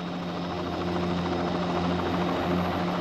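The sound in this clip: A helicopter landing in front of a chateau gives a steady, loud rotor drone with a low tonal hum that holds even throughout.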